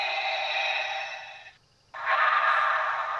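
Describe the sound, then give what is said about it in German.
Heavy mechanical respirator breathing of a masked movie villain: two long, loud hissing breaths, the first about a second and a half, split by a brief near-silent pause. “Wir müssen den guten Darth Vader natürlich ausatmen lassen.”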